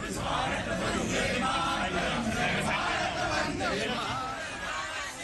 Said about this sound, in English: The venue echoed with chants of Modi Modi and Vande Mataram as he arrived.